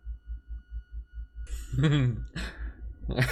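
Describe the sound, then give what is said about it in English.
A voice imitating an old dog sniffing makes a few breathy, snuffling bursts, one with a voiced, grunting tone, over a low rhythmic pulse. “I just enjoy mimicking my old... one of our old dogs sniffing.”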